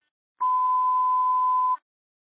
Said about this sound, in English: ringtone.